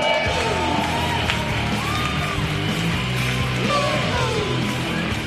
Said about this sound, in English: Give it up for all the acts that you've seen.